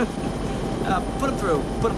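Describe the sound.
A helicopter engine drones in a steady low rumble throughout, with faint voice-like sounds over it.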